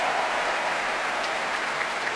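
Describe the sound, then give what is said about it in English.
A Proms audience applauds the choir as its members all stand, with a thick, even wash of clapping that holds steady at full strength throughout. “And you hear how this prom audience reacts to the choir all standing.”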